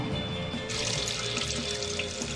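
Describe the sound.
Tap water runs steadily into a bathroom washbasin impregnated with nanoparticles, in the sanitary-ware department of a store; a continuous, soft hissing splash with no voices.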